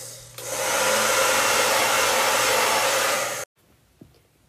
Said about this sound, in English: didn't you bring a hairdryer? Oh, I did. We can use that to dry off the map. Let me look through my bag. Found it. Okay, let's dry it down.